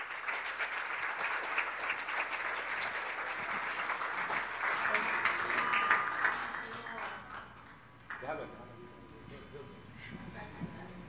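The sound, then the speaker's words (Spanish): Loud applause from a church audience standing to welcome a pastor, dense and steady for about eight seconds before dropping away, with voices heard over the clapping. “le voy a pedir que se pongan de pie y recibimos al pastor Dennis Bingham con un fuerte aplauso”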